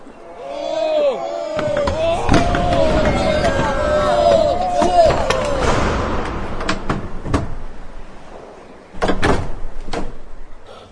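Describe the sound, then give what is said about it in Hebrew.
Heavy, very strong door being forced open, with many hard thumps, knocks and bangs in an uneven rhythm while people talk and call out over the struggle. “אי אפשר עוד מעלתו. הדלת הזאת חזקה מאוד. סוזו, אני אפרוץ עם הגרזן שבידי.”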